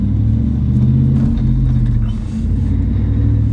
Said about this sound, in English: damn, someone driving a Benz out here.